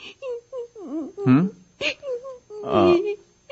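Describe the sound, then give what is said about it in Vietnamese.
A child crying in short, wavering whimpers and sobs, with louder wailing bursts, while an adult man speaks softly between them. “Thôi ngoan nín đi, nói cho chú biết, nói cho chú biết.”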